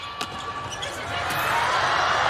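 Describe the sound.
A volleyball serve struck during a Chinese women's national team match gives one sharp ball impact near the start. Steady crowd noise builds beneath it, and voices talk throughout.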